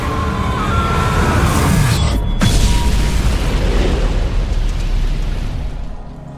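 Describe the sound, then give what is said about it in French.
A bridge collapses with a thunderous crash like a bomb explosion, a loud, deep, sustained roaring rumble that holds steady and then fades slightly at the end. “L'épouvantable vacarme provoqué par l'effondrement du pont ressemble à celui de l'explosion d'une bombe qui fait trembler vitres et objets.”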